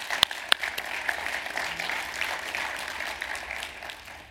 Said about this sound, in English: And so can we give our trustees just a round of applause for